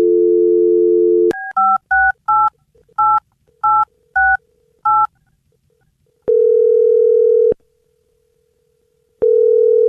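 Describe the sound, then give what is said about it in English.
A steady telephone dial tone breaks into a quick run of eight touch-tone keypad beeps as a number is dialed, followed by two long, even ringback tones separated by a pause, loud and with no talk. “I'm going to dial the number”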